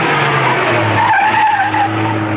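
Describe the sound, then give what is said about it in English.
Car tyres skid as the car swings to a stop outside a building, a loud, continuous squealing screech over a low engine rumble that fills the whole clip. “Outside the building, she swung the car to a stop.”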